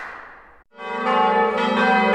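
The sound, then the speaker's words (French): Church bells ring in full peal for Easter Sunday. A fading ringing tone drops out briefly, then louder overlapping bell tones swell in and sustain, bright and resonant. “ce sont les cloches du dimanche de Pâques qui sonnent à la volée sur France Musique”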